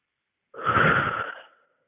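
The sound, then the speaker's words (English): A single deep breath, a soft breathy rush of air that swells quickly, holds for about a second, then tapers away, heard alone without talk. “Can you take a deep breath for me and sort of describe what that feels like now that the air is clear?”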